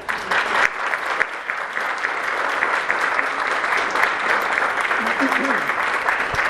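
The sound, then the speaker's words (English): Elders in an audience applaud: dense, steady clapping that stays loud and even from start to finish. “Elders, please applaud them.”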